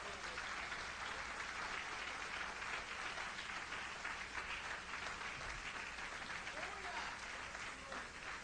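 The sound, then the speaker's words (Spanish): Congregation applause during a church sermon, a faint, even patter of many hands with no individual claps standing out. “Dale un aplauso a Jesucristo.”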